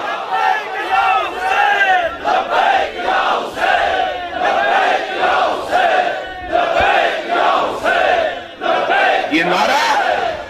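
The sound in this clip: A large crowd chants a religious slogan in loud unison, repeating it in rhythmic bursts with short pauses between shouts throughout.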